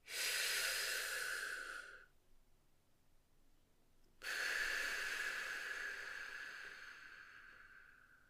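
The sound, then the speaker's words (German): Deep, forceful breathing: two long, airy, hissing breaths separated by about two seconds of quiet, the second drawn out longer than the first, with no talking. “Atme erst einmal tief durch, mehrmals und kraftvoll.”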